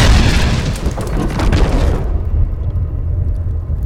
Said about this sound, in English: I aimed my staff directly at the pedestal and sent a ball of fire toward the book. Earthcast!